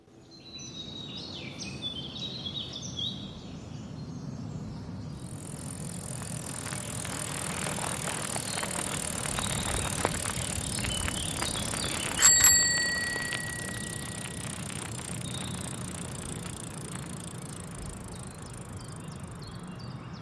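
A bicycle arrives in Saint-Sulpice, its bell ringing a few bright times over a steady rolling hiss, with one clear ring standing out late in the sequence.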